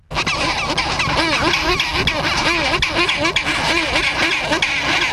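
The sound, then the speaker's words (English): Chinstrap penguins squabble loudly over nest sites in a dense, continuous chorus of harsh, braying calls that overlap and repeat throughout. “That's a flavour of their fierce squabbling over nest sites, which are quite loud.”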